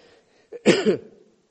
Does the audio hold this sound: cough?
yes